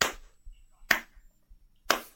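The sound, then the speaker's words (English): Hand claps kept in rhythm: three sharp, dry slaps spaced roughly a second apart, loud and alone with only faint low thumps between them. “There's no way you can be that bad at clapping.”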